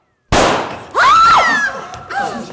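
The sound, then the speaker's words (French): A pistol shot in a stage play: a sudden loud bang followed by noise and shrill, wavering tones that trail off, with another burst near the end. “jugea que ce n'était pas la peine de parler davantage, et il tira son pistolet.”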